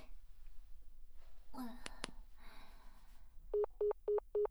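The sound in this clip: Telephone keypad dialing to call the police: four evenly spaced, steady electronic tones follow a soft voice and two quick clicks, over a low background hum.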